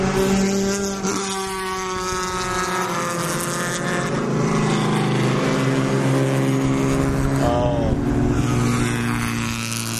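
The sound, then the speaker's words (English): Porsche racing cars pass at a motor race. Their engines make a loud, high-pitched whine that holds steady for about ten seconds, with the tones wavering as the cars go by. “It's a high whine pitch for the Porsches. That might have been the last of the cars.”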